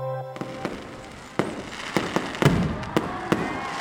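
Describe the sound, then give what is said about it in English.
A fireworks display ahead of the new year, recorded in 2017: sharp pops and bangs burst at irregular intervals, some louder than others, with no talk. “We are all familiar with the wonders of a firework display. And the skies will be lighting up once more as the beginning of a new year approaches. And actually, what you're hearing was recorded in 2017”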